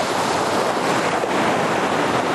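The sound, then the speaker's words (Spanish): Rough, choppy waves of the Cantabrian Sea make a steady, loud roar of surf with wind noise. The dense hiss stays even throughout, with no distinct breaking waves standing out. “Qué relajante el mar, ¿eh? Por cierto, bueno, este está un poco embravecido, justo este en concreto. El Cantábrico es lo que tiene.”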